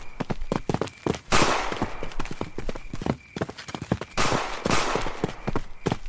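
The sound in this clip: Gunshots in a radio drama shootout: many sharp pops and cracks fire in quick, uneven succession, with two louder bursts of crackling noise. The sound is loud and has no talking over it.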